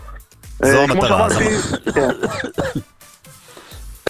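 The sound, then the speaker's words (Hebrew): Coughing and throat clearing, recorded as sample coughs, in a few harsh bursts mixed with voiced, throaty sounds, fairly loud and alone, with a brief catch near the end. “אני רוצה לשמוע עוד שיעולים. בוא נשמע עוד שיעולים.”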